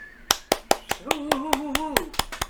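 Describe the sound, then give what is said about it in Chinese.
Hand clapping as encouragement in a children's English lesson, a steady run of sharp, quick claps in an even rhythm, with a voice holding a sung tone over the middle claps. “掌声鼓励鼓励！”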